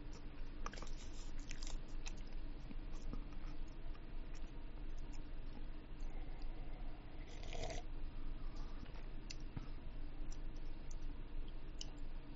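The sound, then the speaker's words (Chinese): Food is chewed right up against a microphone. Soft, wet crunches and small clicks repeat many times at an uneven rhythm, quiet but intimate, with no talking. “即系唔中意听嘴嚼声，你快走啊！”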